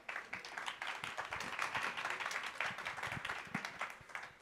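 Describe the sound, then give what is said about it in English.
Audience applause for the speakers at a talk on crypto regulation: brisk, continuous clapping with crisp individual claps, holding steady before thinning slightly at the end. “Please give it up to the speakers.”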